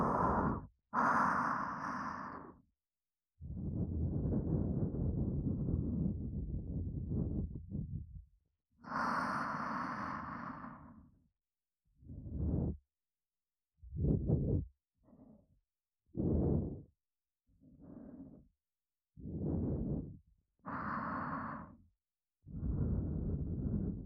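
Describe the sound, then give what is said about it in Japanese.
Gentle breath blown out softly in a long series of airy puffs: a few longer exhalations come first, then many short, even bursts with brief pauses between them. There is no talk. “それじゃあふうってしますね。いきますよ。”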